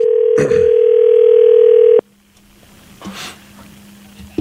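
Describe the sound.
An outgoing telephone call rings back with one loud, steady electronic tone lasting about two seconds before it cuts off, followed by a faint low hum and a brief rustling noise.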